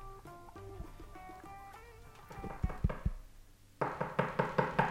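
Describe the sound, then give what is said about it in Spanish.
Knocking on a door: a few sharp knocks, then a steadier run of several evenly spaced raps, clear and fairly loud, with tonal sounds in the background before the knocking begins. “Una puerta. Una puerta. Un golpe en una puerta parecería ser”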